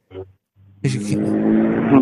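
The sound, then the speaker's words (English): A loud car drives along an interstate, its rough, rumbling engine roar surging in suddenly and holding strong to the end, with a brief bit of talk just before. “So there was a car farting down the interstate just then, if you heard that.”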